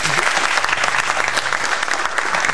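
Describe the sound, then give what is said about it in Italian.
A canned applause sound effect is triggered from a phone button: dense, loud, steady clapping and crowd noise filling the whole clip evenly, with no pauses. “Perché si sente? Non lo so, prima non si sentiva l'applauso.”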